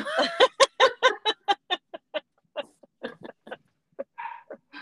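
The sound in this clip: A female dog barks at her own reflection in a mirror, many sharp, loud barks in a rapid, insistent series that becomes more spaced and uneven toward the end.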